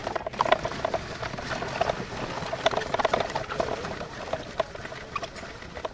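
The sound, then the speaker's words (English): Kids crank a small hand-operated wooden apple press, grinding apples into mash: steady, irregular clattering and crunching with many small ticking clicks, moderately loud and continuous, with no voices. “it's a hand-operated, small wooden apple press. They all work the same basic way. The first stage is to grind the apples into a mash, and that's what those kids are doing, turning the crank.”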